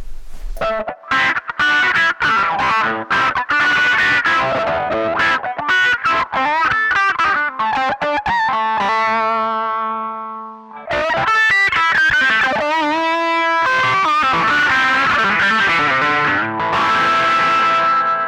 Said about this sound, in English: And here's the wah paired up with the fuzz face.